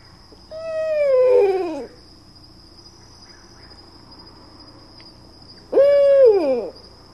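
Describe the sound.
Two owl hoots, with female calls carrying more vibrato than male ones: first a long, wavering call that drags on and sinks in pitch, then a shorter one cut off sooner, over a constant high insect trill.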